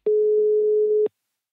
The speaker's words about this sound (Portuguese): Decidi ligar para o número que estava na página.